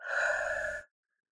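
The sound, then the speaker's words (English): A deep breath: one steady, breathy rush of air lasting under a second, fairly loud, with no talk over it, and then silence. “with a deep breath. In through your nose and out through your mouth.”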